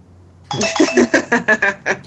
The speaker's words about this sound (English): whose doorbell is that? Not mine. That's weird.